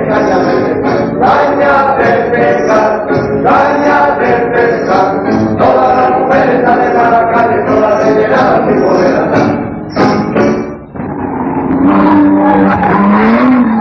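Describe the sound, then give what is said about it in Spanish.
Car on Goodrich tires taking high-speed curves: a loud, dense roar of engine and squealing rubber that wavers in pitch throughout. It dips briefly near the end, then surges back. “Neumáticos Goodrich, diseñados para tomar las curvas en las condiciones más difíciles de manejo. Diseño sobresaliente en la alta velocidad”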